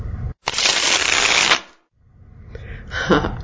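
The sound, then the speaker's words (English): A Smith-Waite tarot deck is riffle-shuffled in one crisp, loud burst lasting about a second. After a short silence come quieter rustles and slides as a card is drawn from the deck. “And here we are, reading from her deck, saying her name. And now, I'm going to pull a card for us.”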